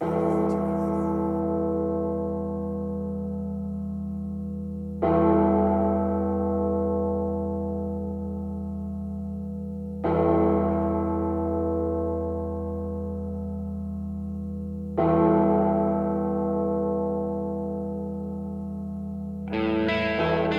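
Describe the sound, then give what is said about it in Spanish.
A church bell tolls in slow, evenly spaced strokes about five seconds apart. Each stroke is loud and rich, ringing on with a long fading hum before the next one, and a fresh strike lands at the very end. “Las campanas anuncian nuestra última media hora de programa.”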